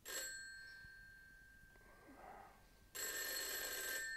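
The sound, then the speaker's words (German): A telephone bell rings at midnight: a short burst of bright metallic ringing, a quiet gap, then a loud, sustained ring that carries on to the end. “Leider wurde Mr. Nuttings Schlaf schon um Mitternacht gestört, als sich das Telefon abermals hören ließ”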